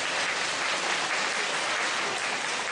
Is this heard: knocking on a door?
no